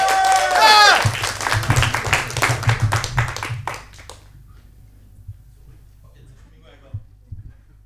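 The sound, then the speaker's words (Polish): Audience applause greets a former vocalist as he comes on stage at a live concert, following a brief burst of singing. The clapping swells, then fades out after about four seconds into near silence. “Witamy Artura głośnymi brawami.”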